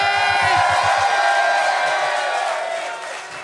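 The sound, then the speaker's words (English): Comedy show audience cheers and whoops as a comedian is introduced on stage, a loud burst of voices and applause that swells early, then gradually fades over a few seconds. “Make some noise for David Gborie!”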